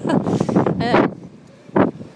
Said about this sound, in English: This wind's that strong, my hand's freezing.